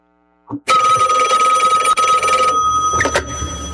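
A telephone rings with an incoming call. After a brief soft click comes a loud electronic ring lasting nearly two seconds, then a shorter burst of ringing.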